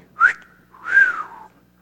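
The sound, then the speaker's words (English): A man whistles an imitation of a prison catcall: a short, sharp rising note, then a longer note that arches up and slides downward, two clear whistles alone. “I wish I could whistle better.”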